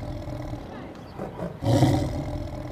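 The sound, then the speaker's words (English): A tiger roars once, a loud, rough, rumbling roar that bursts in partway through after quieter low sound and then slowly fades. “They're tigers. Tigers! Roar!”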